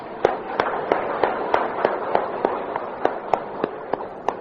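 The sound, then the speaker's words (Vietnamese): Applause follows a sermon on nirvana: a dense crackle of clapping hands with louder individual claps popping out at a fairly regular pace, heard alone without talk. “Xin cho tràng pháo tay.”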